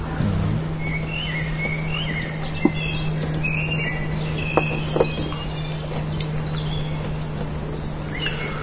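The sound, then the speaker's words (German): Small birds singing: many thin, high chirps and short trills scattered throughout, fairly faint over a steady low hum and broad background noise, with no talk. “Nur die Vögelchen singen noch.”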